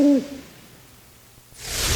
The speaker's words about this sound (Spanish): Gracias, señor búho.